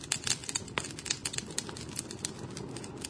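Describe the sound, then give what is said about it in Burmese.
A burning bonfire crackles, played as a sound effect: dense, irregular snaps and pops over a steady hiss, continuing without pause. “ဒီတန်းကိုနားထောင်ကြည့်ရတာမီးပုံပွဲလုပ်တဲ့အခါမှာထွက်တဲ့အတန်နဲ့တူတယ်နော ်ဂျပန်စကားမှာတစုံတစ်ခုကိုမီးလောင်နေတဲ့အခါမှာဒီလိုအတန်မျိုးနဲ့ဖော်ပြလေရှိတယ်”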